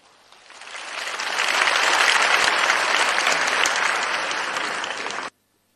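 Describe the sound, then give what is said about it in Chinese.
Audience applause at a Guan Yin Citta Buddhist gathering, celebrating a successful brain surgery, swells over the first second and a half into a dense, steady roar of clapping, holds for a few seconds, then cuts off abruptly. “让我们掌声欢迎”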